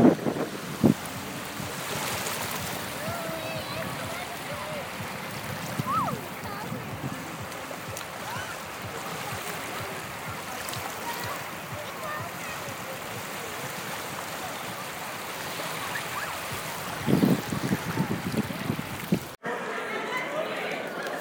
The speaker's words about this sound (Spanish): Un poquito de ambiente del barrio rojo, del Red Light.